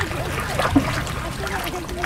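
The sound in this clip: Water sloshing and lapping around a small wooden shikara boat with a cushioned seat and canopy on a lake, rowed with a traditional heart-shaped paddle; soft, irregular splashes run under continuous speech.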